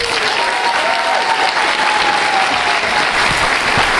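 Audience applause at the WordCamp US conference as WordPress's co-founder is welcomed to the stage, a loud, dense, even roar of clapping from start to finish, with a thin steady tone running beneath it.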